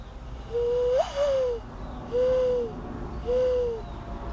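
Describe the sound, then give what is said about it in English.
A person imitates a dove call with four low, hollow hooting notes, each a steady tone, spaced in a slow, even rhythm, with the first two joined by a brief upward flick. “Should I do my dove call? I just heard one. Okay. The dove one.”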